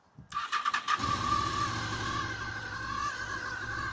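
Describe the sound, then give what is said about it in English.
A motorbike engine starting: a short burst of quick cranking pulses, then it catches and settles into a steady, even idle, moderately loud. “This is what a bike sounds like, if it starts.”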